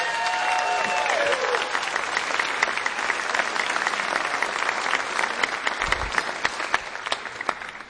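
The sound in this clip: Audience applause after a live music performance: dense, steady clapping fills the whole stretch at an even loudness, with a fading tonal ring lingering briefly at the start.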